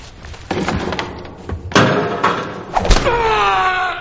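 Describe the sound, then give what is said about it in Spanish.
Heavy blows land on a person in a film fight scene, a series of thuds and slams at uneven intervals with the loudest impacts near the end. “se levanta y le vuelve a golpear.”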